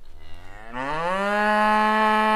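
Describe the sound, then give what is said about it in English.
A cow's moo: one long, loud call that starts low, rises in pitch, then holds a steady, rich tone to the end, with no talking. “The door moos like a cow because the door is made of milk chocolate.”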